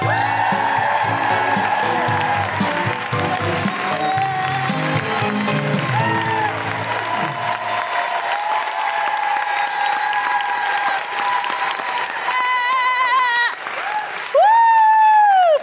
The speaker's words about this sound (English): Put your hands together and make an incredible woohooing noises for the wonderful Sophie Juker.